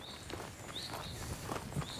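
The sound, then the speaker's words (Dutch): Footsteps move across wooded ground toward a nest, a few soft, irregular steps, while thin, high bird chirps sound over them. “Laten we er maar eens naartoe lopen.”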